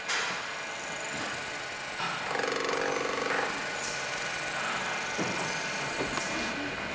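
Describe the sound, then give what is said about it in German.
Factory-made metal ball blanks being ground round make a steady, harsh mechanical grinding noise with high-pitched squeals and whines rising and fading. “Die fabrikmäßig hergestellten Rohlinge aus Metall werden rund geschliffen.”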